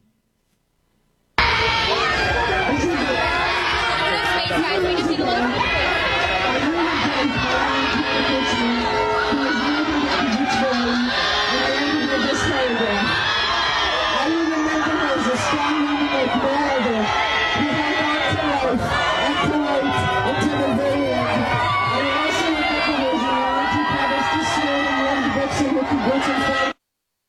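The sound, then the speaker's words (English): Crowd noise at a candlelight vigil held for people who were killed: a dense, loud, continuous mass of overlapping voices with shouts and cheer-like outbursts, sustained without a break for nearly half a minute. “That's the sound of a candlelight vigil, the solemn prayer service on behalf of the dead and the still mourning,”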